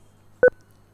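A single brief electronic telephone tone during a phone call: one short, fairly loud two-pitch beep standing alone over a low steady hum.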